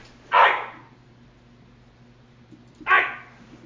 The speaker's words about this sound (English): I have a dog with a cold.